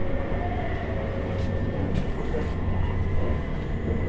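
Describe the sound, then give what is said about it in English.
Continuous low rumble of a train coming into a station, with dense steady rolling noise and a few faint, brief higher squeaks rising above it, no voices. “We will shortly be arriving at Wadhurst.”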